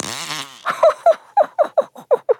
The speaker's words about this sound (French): Qu'est-ce que j'entends? Prout, prout.